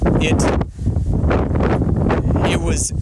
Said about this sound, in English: holy crap, it's so windy, guys. I'm so sorry.